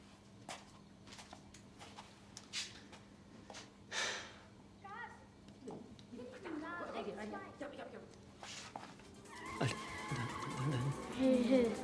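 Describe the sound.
Engine roar and skidding tyres from a car accelerating in a racing video game, surging and fading under loud, excited talk between players.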